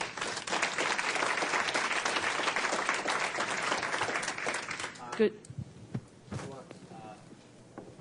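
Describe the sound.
An audience applauds to welcome panel speakers at an education event, dense, steady clapping for about five seconds that then thins out and fades, followed by a few faint thumps and low talk.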